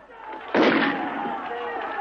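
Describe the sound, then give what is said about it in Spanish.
Riflemen fire a volley of rifle shots in a 19th-century battle: one sudden loud blast that rolls off into a long ringing decay over a sustained background. “Los fusileros se preparan. ¡A tierra! ¡Alto! ¡Apunten! ¡Fuego!”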